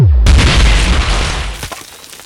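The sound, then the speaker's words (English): A ray gun blast explodes a boulder with a loud booming burst and a rushing roar that fades over about two seconds, ending in scattered crackles. “But it didn't look as if it was in much pain before it exploded, though. And he could have just rigged it with some dynamite or something.”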